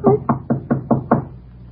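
Six quick knocks on a door, evenly spaced in a steady rhythm, each a dull, low thud of similar loudness, with no talk.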